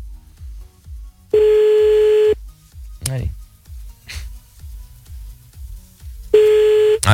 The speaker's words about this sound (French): On y va, c'est parti, on appelle maintenant le dernier de la soirée.